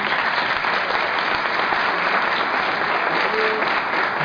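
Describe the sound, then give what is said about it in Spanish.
Audience applause welcoming people from Jalisco at a gathering, a thick, uniform roar of clapping that stays steady and loud from start to finish. “Bueno, Jalisco es, bienvenidos, un aplauso para la gente.”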